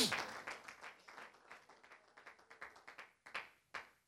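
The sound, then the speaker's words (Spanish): Applause from an audience standing during a church service: many quick claps in a steady, fairly faint patter that keeps going throughout, with no voices heard. “Póngase de pie, dele un aplauso al Señor.”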